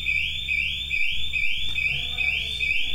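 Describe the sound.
An electronic alarm goes off inside a church, a loud, high-pitched tone made of rapid, evenly repeating rising sweeps that continue without pause over a low background rumble.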